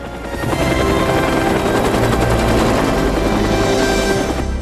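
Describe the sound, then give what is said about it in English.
Loud, steady roar of a sleek blue aircraft lifting off and rising through overhanging foliage, a dense rumbling drone with a rapid pulsing beat that swells in at the start and holds throughout. “The sleek blue aircraft rises carefully out through the overhanging foliage.”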